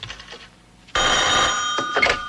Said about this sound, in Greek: Εμπρός, πάρε τώρα αμέσως τηλέφωνο.